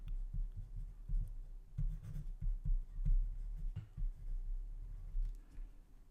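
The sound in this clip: Drawing on paper produces many soft, scratchy strokes in an irregular rhythm. The sound is faint and continuous, with no voices.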